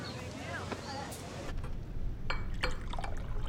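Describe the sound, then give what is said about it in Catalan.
Limoncello pours into a small glass at home, a trickling splash that grows fuller and steadier in the second half, with a voice murmuring early on. “A casa, una dona omple un gotet de limoncello.”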